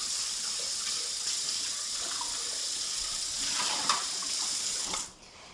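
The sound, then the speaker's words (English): Water gushes from a kitchen tap as a bowl is rinsed out, a steady, full rush of running water that cuts off abruptly just before the end. “All right, rinsing out my bowl and starting over.”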